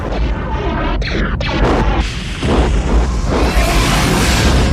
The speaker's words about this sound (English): He's bombing everything in sight.